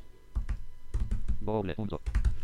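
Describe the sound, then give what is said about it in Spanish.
Someone types a web address on a computer keyboard, producing a quick string of crisp key clicks with a voice speaking briefly among them. “y voy a escribir la dirección de Google Reader, que es reader, punto.”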